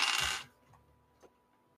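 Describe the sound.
Dice rolling during a tabletop role-playing game, seven dice thrown for a medicine test: a quiet, bright rattling burst, then a couple of faint clicks as the dice settle.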